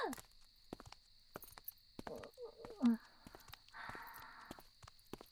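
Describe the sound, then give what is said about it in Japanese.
Sparse, faint footsteps as people walk someone along toward a back alley, with soft separate thuds and brief strained vocal sounds in the middle and near the end. “まだ歩くのか？どこまで私を連れて行くつもりだ。”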